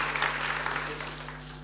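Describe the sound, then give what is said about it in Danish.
Audience applause for young people being congratulated: dense, steady clapping from a crowd that runs through the whole stretch without a break. “Tillykke til jer smukke unge mennesker. Skal det ikke have en ekstra hånd?”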